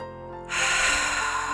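One deep breath is drawn in sharply through the nose during a guided meditation. After a short quiet moment, a single long, airy intake starts and holds steady to the end.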